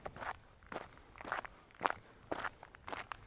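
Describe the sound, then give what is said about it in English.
Footsteps crunch on gravel in a steady walking rhythm, each step a short, gritty scrunch, with several steps spaced evenly apart. “I'm walking on the gravel only because it sounds a bit more interesting than walking on the grass.”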